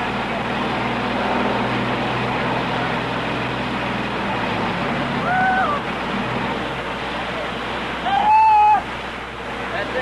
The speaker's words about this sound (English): I think perhaps the best thing we could do just hang this mic over and pick up the grind of that generator so that we'll be sure and pick it up.